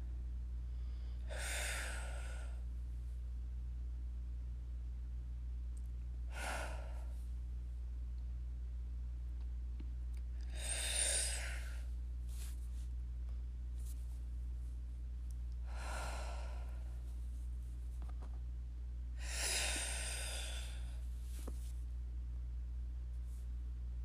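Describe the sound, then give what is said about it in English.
Five slow, deep breaths fill the lungs, each a soft rushing inhale-exhale spaced evenly several seconds apart over a steady low hum. “So I want you to take 1, 2, and 3 big deep breaths, fill the lungs.”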